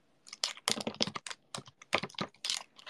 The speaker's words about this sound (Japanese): めちゃうるさいかも、キーボードの近くだから。